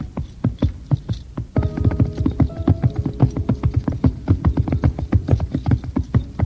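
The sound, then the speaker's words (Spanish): Horses' hooves clop as a small horse and a black steed ride off from a palace. Many even, rhythmic hoofbeats continue without pause, and a steady tonal hum joins in partway through. “Esta montó en su caballito y el caballero en su corcel negro y partieron del”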